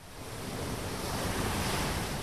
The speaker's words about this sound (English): With turquoise waves, white sands, and a row of pretty bungalows overlooking the beach, Freddy Rousseau